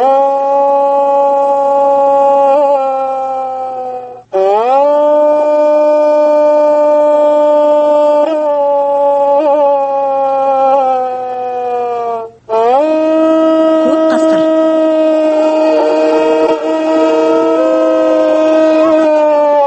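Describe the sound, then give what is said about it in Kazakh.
Wolf howling in three long, drawn-out harmonic howls, each sustained at a steady pitch after a brief upward slide at its start, loud and unbroken with only short gaps between them. “Қасқырдың дауысы.”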